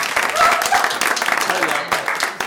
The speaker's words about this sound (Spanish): Es mi esposa. Un aplauso para mi esposa.